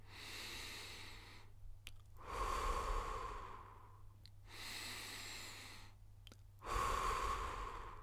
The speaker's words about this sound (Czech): pojďme se na chvilku zastavit a pojďme se nadechnout. A výdech. Znovu nadechneme